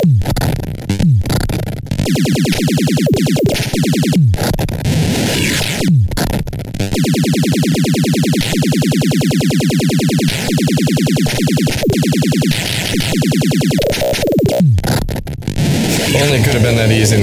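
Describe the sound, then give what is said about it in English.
Frantic video game bonus-round music plays loud and dense with a fast, pulsing beat, running continuously with people talking over it. “See, the tempo of the music's gotten pretty intense.”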